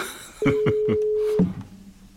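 Electronic telephone dialing on speed dial: a steady low tone about a second long overlaid by a few quick pulses, then fading out.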